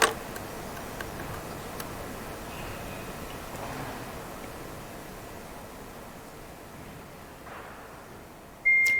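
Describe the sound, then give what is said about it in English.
A phone notification sound that goes off whenever something comes online: one short, clear beep near the end, rising out of a steady low hiss. “yes, we would get this notification sound.”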